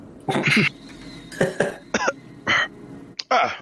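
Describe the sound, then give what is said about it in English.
A voice imitating regurgitating swallowed body pieces: a series of loud, harsh gagging and coughing retches in short bursts, with brief pauses between them. “I'll just go off to a corner, unhinge my jaw, and regurgitate quite a few body pieces.”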